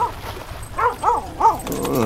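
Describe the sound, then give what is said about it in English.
A wet dog by a campfire whimpers and yips in three high, arching cries spaced close together, over a low steady background. “You're a good pupper.”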